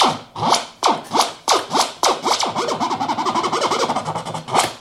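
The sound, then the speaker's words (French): A pre-recorded cassette tape is pulled across the head by hand, giving scratchy swept bursts: a few spaced strokes at first, then a quick run of many short rasps, and a final stroke at the end. “je préenregistre moi-même les sons qui m'intéressent sur bande, que je fixe, et je peux les lire à la main comme ça.”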